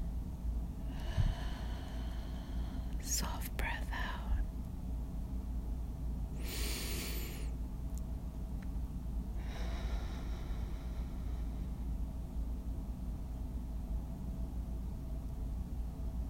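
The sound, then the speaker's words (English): Faint, slow breaths drawn in and let out, a few soft airy bursts spaced several seconds apart over a steady low background hiss. “A deep breath in. Soft breath out. Deep breath in.”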